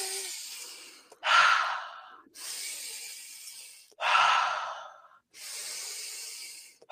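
Deep, loud breathing during a guided breathwork exercise: several long, airy inhales and exhales in slow alternation, each swelling and fading with a rushing hiss, with no talk over them.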